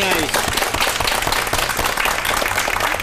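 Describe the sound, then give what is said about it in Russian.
Loud, dense studio audience applause on a television quiz show, many hands clapping in a fast, continuous patter, with a voice briefly heard at the start. “присоединяюсь к аплодисментам”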